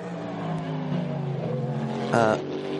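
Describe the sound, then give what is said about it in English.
A second-placed race car drives out of Arnage corner, its engine a steady tonal drone under commentary voices that swells into a brief louder burst near the end. “I was thinking that was a car coming back to unlap themselves, but in fact that is the second place car coming out of Arnage”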